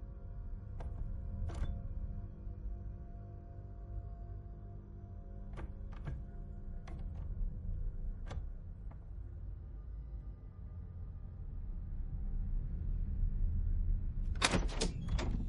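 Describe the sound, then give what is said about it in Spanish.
Door handle rattling and a door opening in a closed room in a horror film, heard over a low rumbling drone: scattered faint clicks, then a quick loud burst of clicks and knocks at the very end. “La puerta de la estancia está cerrada, la manija se mueve.”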